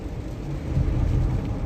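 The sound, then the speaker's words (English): A car is driving and merging into traffic, heard as a continuous low, rumbling road and engine noise that stays fairly even throughout. “Sorry, I'm merging here. I'm paying attention to while I'm driving.”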